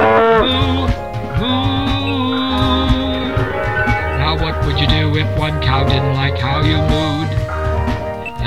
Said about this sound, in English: This is how normal cows sound when they moo.